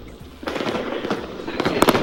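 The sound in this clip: Firecrackers going off at a private party with music and a crowd: a steady din of voices and noise, with a few sharp, crackling bursts near the end.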